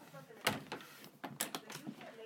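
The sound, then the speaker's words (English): A heavy hotel room door swings shut onto its latch with a sharp knock near the start, followed by a few softer knocks and clicks while people talk quietly. “Put the door on the latch. Okay. They're very heavy doors.”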